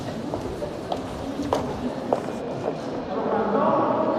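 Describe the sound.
Footsteps of people walking through the EU Council building: soft, evenly paced steps sound over a dense, noisy background with voices.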